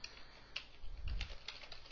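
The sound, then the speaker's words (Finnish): Typing on a computer keyboard while writing in a text editor: a few faint, quick key taps clustered in a short burst. “Jos mä haluan sinne toisen P-elementin, niin mä lyön tänne vähän enttereitä ja kirjoitan”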